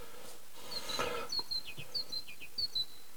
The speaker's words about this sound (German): Da piepen die Meisen und scheren sich nicht